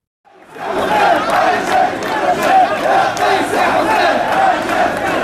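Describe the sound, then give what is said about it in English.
Several hundred protesters chant together at a rally in Tunis, Tunisia, demanding the president's resignation. After a moment of silence, the massed voices rise into a loud, rhythmic, continuous chant that swells and pulses without a break. “Chanting "Case Saeed, you scumbag, brave men have come for you," several hundred protesters rallied in Tunis, the capital of Tunisia, to demand the resignation of President Kais Saied.”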